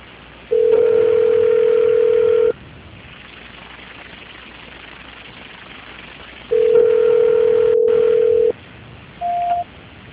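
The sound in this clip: Steady telephone line tones play while a call is transferred: two long, level mid-pitched tones of about two seconds each, separated by a quiet gap, then a short higher beep near the end.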